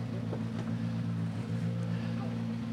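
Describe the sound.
A rally car engine drones at the start of a rally stage as team number 2 sets off. The low, even rumble stays faint and unchanging throughout.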